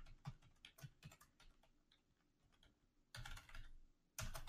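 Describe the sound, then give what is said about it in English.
Rapid keystrokes on a computer keyboard as a business name is typed into a search, many sharp irregular clicks at moderate loudness, then two louder, denser bursts of clattering keys near the end, with no voices. “We're going to type this in and I want to show you.”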